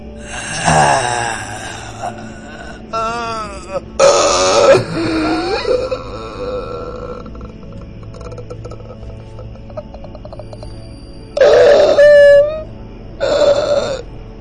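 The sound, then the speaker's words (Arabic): A voice performs the rasping groans and gurgling death rattle of someone dying, as an effect in a horror story. Several harsh, throaty bursts with snore-like rattling are separated by quieter pauses, and a long lull falls before the last two louder groans. “صوت حد بيطلع في الروح”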